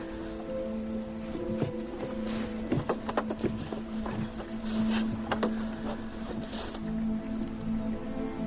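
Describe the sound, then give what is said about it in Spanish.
A boat's motor runs steadily as a low droning hum, with rattling clicks and watery splashes scattered over it throughout. “La joven mira a su alrededor y respirando profundamente se pone en pie. Se acerca a la popa del barco y se sienta junto al motor.”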